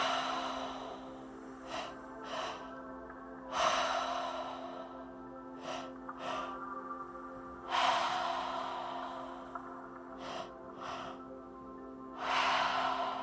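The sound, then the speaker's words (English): Rhythmic mouth breathing in a tri-active breathwork pattern, two quick inhales followed by one longer, louder exhale, repeated about three times over a steady low tonal drone. “And now we're going to shift into our tri-active breath. Remember, this is all through the mouth. 2 breaths in. 1 breath out.”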